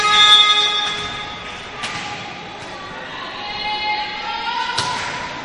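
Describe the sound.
Ball struck on a serve in a women's volleyball match, heard as two sharp, separate thumps over a steady background hum of the arena.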